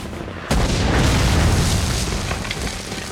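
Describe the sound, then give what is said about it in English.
A mortar is fired from a launcher on a hill during a battle: one abrupt, loud boom, followed by a sustained, rumbling roar that slowly eases off. “On the hill, a rebel loads another mortar into the launcher and covers his ears.”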